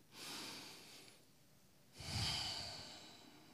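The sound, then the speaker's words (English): Two long, soft breaths as someone takes a deep breath during a guided relaxation, each a gentle airy rush separated by a quiet pause. “And I want you to take a deep breath.”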